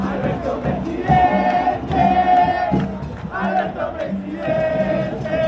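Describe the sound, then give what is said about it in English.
A crowd gathered in Buenos Aires celebrates a newly elected president, chanting loudly in unison with a rhythmic, sung chant that repeats in phrases, with cheering between them. “That's the sound of a crowd gathering in Buenos Aires last night to celebrate their new president and also their new vice president, Cristina Kirchner, who is returning to power.”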